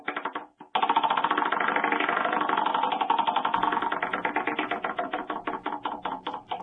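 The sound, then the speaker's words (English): A game show wheel is spun, its clicker ratcheting in a rapid, dense stream of ticks that gradually slows into distinct, evenly spaced clicks as the wheel loses speed. “All right, spin the wheel. You're a little gun shy. I'll spin the wheel.”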